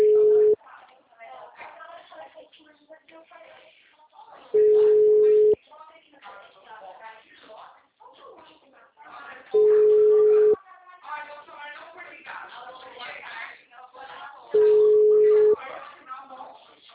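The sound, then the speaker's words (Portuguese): A telephone tone after a dropped call: a steady low beep of about one second repeats four times at even intervals of roughly five seconds, with someone talking in between. “Nossa, eu tava falando tão bem aqui com o cara, velho. Caiu a ligação.”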